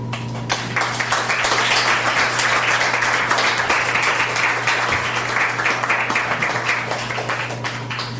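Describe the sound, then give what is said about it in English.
An audience applauds after a spoken poem about climate, with dense, steady clapping that stays loud and even for the whole stretch. “As we give uh, Gwen Whitford another hand, let's welcome Tia Lund.”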